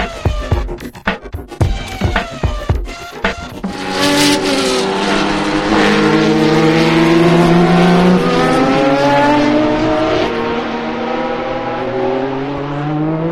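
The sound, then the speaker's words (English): A Bugatti Veyron and other supercars race past with loud engine noise, opening with a few seconds of sharp, rapid popping bursts, then becoming a sustained, powerful roar whose pitch shifts as the cars go by. “Full respect to the Veyron incoming. I think they've got them in the right order, actually. Well, they promised us supercars, and they definitely delivered.”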